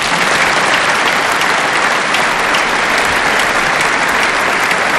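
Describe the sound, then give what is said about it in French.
Steady, dense applause from a Christian crowd of over 35,000 people clapping for the Pope, an even hiss of countless hands at full volume with no pauses. “Le pape qui dit toujours sa gratitude, le pape qui est reconnaissant et le peuple chrétien qui applaudit son pasteur, que c'est beau,”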